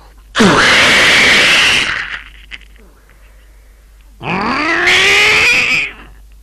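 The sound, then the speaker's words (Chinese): A storyteller imitates the muffled grunt of a man struck by a palm in a Chinese martial-arts tale. Two loud, drawn-out growling vocal bursts rise in pitch, with a short quiet pause between them. “这一掌打得金毛狮王司徒烈一声闷哼，向后退出有四五步”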